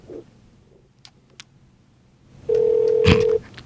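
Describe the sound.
A telephone call rings through to an office extension: one long, steady ringing tone, fairly loud, after a few faint clicks.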